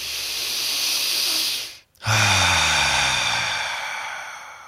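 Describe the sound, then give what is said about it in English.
A full circular breath drawn like a bellow, with the breathing moving horizontally: a long, steady, airy hiss, a brief silent break, then a second long rushing breath that slowly fades. “So I'm going to do a full circular breath.”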